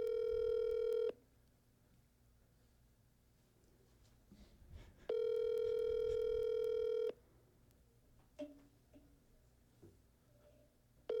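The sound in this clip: A phone call ringing out on speakerphone: a steady electronic ring tone sounds in long bursts with pauses of about four seconds between them. Faint rustling and movement fill the gaps, and another ring begins at the very end.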